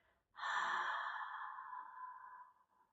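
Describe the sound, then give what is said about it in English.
A single long audible exhale through an open mouth with the jaw dropped, voiced as a soft tone of release in a guided breathing exercise. It starts suddenly and strongly, then fades gradually over about two seconds. “Let's take these first three exhales out an open mouth, drop the jaw, add some sound, breath of release.”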